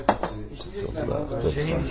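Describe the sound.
Glasses clinking as drinks are poured at a shared table, with a couple of sharp clinks near the start and softer glassy sounds under people talking.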